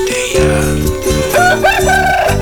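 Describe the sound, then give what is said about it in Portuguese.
A rooster crows at five past five in the morning, its loud, wavering call rising and falling over a dense, steady background for a couple of seconds. “Cinco e cinco, o galo cantou. Esse galo.”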